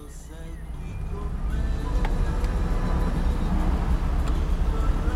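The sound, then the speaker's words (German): Road noise from a light blue Fiat 500 convertible driving along the coast with the top down, a steady low rumble and wind rush that swells slightly and then holds. “Sie fahren in Helens hellblauem Fiat 500 Cabrio die malerische Küste entlang. Das Verdeck ist offen, der Fahrtwind zerzaust ihre Haare”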